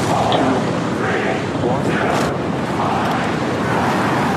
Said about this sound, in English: Today in Texas, the largest rocket ever made lifted off from its launch pad.